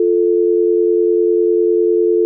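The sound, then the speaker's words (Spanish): A steady answering-machine beep signalling the start of recording on a Spanish-language voicemail system: one loud, pure, unbroken mid-pitched tone at constant volume. “Grabe el mensaje después del tono.”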